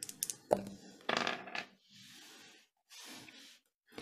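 Two six-sided dice rolled in a tabletop role-playing game: a faint sharp click followed by a brief clattering rattle, then a few soft hissy noises, all quiet.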